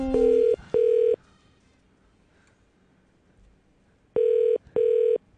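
Telephone ringback as an outgoing call rings out: two pairs of steady mid-pitched double rings separated by about three seconds of near silence.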